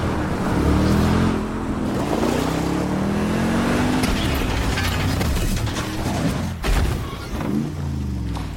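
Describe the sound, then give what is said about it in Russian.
A car drives at full speed toward closed gates, its engine roaring loudly and continuously with whining, shifting mechanical tones and rattling noise throughout. “Машина на полном ходу въезжает в закрытые ворота.”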